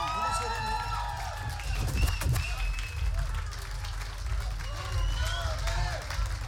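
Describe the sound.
Audience applause: steady, dense clapping with cheering, shouts and high voices mixed through it, holding at an even level the whole time.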